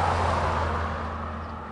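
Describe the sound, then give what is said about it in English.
Big cattle trucks rumbling along a U.S. highway: a steady low engine drone with a faint humming tone that eases off slightly toward the end, with no voices. “The Empire Motel sits on a stretch of U.S. Highway 36 where big cattle trucks rumble by on their approach to the main part of St. Francis.”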